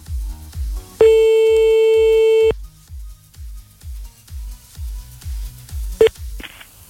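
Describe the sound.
A telephone tone after a call is cut off on a live radio call-in line: one sustained steady beep of about a second and a half, later a couple of short blips, over a thumping low music beat.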